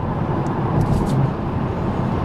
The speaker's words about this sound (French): c'est la première fois que je conduis une Tesla.